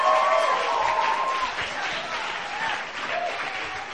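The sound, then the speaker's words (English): An audience at a church service applauds a pastor being welcomed up, a full, sustained patter of clapping that eases slightly in strength partway through but carries on steadily. “so let's put our hands together. Welcome up Pastor Del Augusta.”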